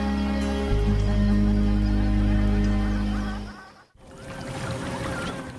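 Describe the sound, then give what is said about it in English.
A motorboat speeds across a lake with a loud, steady, low engine drone carrying tonal harmonics. The drone fades and briefly drops out near the end, then a softer rushing wash of noise returns. “A motorboat speeds across the lake.”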